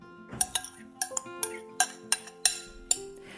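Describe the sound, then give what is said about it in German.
Chopped bell pepper pieces tipped into a bowl while making a salad, producing many bright clinks and taps with short ringing tones, irregularly spaced and fairly quiet, with no talk. “Ich habe hier eine Paprika schon klein geschnitten. Die kommt in die Schale hinein.”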